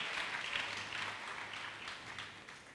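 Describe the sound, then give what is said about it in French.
A church audience applauds after a bilingual French and Swahili sermon, a faint, even wash of clapping that thins slightly toward the end. “Acclamons les bien-aimés qui ont fait les SMS. Tushangilie wapenda waliofanya ujumbe.”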